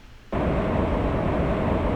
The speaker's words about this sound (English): Quick check shows we have no missions yet. Here we are launching into space.